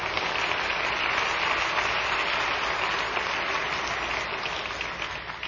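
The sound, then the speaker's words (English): Applause from a church audience welcoming visitors: a long, dense, steady roar of clapping at a strong, even level, softening a little only in the final moments. “Yes, give them a hand.”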